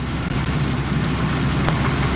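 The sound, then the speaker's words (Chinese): Engine of a rice swather harvester driving through a paddy field, laying cut rice onto 20 cm stubble: a steady, even, low mechanical rumble with no talk. “随着机车驶过，水稻被整齐铺放在20厘米高的秸秆茬上。”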